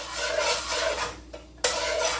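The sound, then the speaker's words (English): A spoon spreading butter around a pan makes a steady, broad scraping rub. It breaks off briefly, then resumes with a sharp onset. “I'll put the spoon in here. There we go, butter up the pan.”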